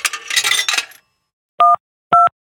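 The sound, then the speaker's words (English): Telephone keypad dialing for an emergency call: a brief rattling clatter, then two short, loud dual-tone beeps separated by silence. “Let's dial 911.”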